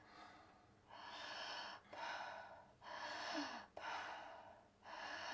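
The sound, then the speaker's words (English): Slow, deep belly breathing during a breathing exercise: soft, airy inhales and exhales follow one another in a steady rhythm of long, even breaths, quiet throughout. “put your hand over your abdomen, take a big inhale on your inhale. There you go. On your inhale, your belly should go out instead of your chest going up.”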